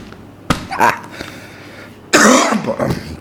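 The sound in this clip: A person coughs, with a couple of short coughs followed by a louder, longer burst of harsh coughing and throat clearing.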